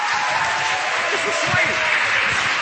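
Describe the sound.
Audience applause welcomes a speaker at a winter retreat talk, a steady, dense wash of clapping across the whole moment with faint voices mixed in.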